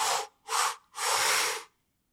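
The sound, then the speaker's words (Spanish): A person inhales in three short, separate parts, making three breathy, hissing intakes of air. The third is the longest, and no voices are heard around them. “Inhalar en tres partes, así”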